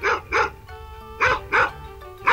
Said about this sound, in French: Le chien,